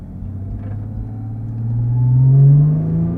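A Porsche 991 GT3 Touring downshifts all the way down its gearbox on the Mount Panorama circuit. The engine gives a loud, low rumbling drone that swells in the middle, then eases slightly.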